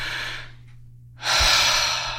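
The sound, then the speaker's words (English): Deep breathing, in and out: one long, airy breath, a brief silence, then a second louder and fuller breath. There is no speech. “just breathe. Deep breath, and let it out.”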